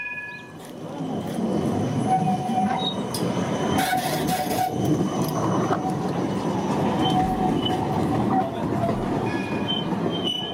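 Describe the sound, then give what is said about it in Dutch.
A tram passes along a city street in Amsterdam, a loud steady rumble of wheels on rails with high metallic squeals for about ten seconds. “Ja, moeten we dit uitleggen? Nee, toch? Dat is een tram, overduidelijk.”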